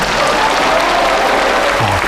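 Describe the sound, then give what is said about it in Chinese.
Audience applause welcoming a singer to the stage, a loud, dense and even wash of clapping that continues for the whole two seconds without a break. “大家掌声欢迎。”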